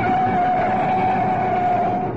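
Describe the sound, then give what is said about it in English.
A car drives fast along a town road: a loud, steady engine drone with a sustained whine that holds level throughout, with no talking. “Nice driving. Now you've got a clear run down Oxford Road. Step on it.”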